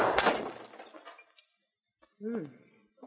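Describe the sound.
A single loud gunshot at a clay pipe held out as a target, a sharp crack with a breaking, crumbling tail. After a pause, a brief voice is heard.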